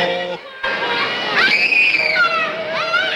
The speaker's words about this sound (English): The big elf shoves the screaming boy down the slide.